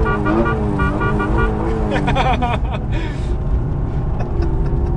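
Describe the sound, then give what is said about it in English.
Car horn honking from inside a BMW M3 on a street, a few sustained, bright toots over steady engine and road noise that fade into the rumble of traffic. “Should we honk the horn? Yeah, let's honk the horn of Dan DeVries.”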